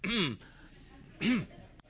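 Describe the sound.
A person deliberately clears their throat twice, demonstrating the habit of a tickle in the throat. Two short, harsh, raspy bursts come about a second apart, with quiet between them.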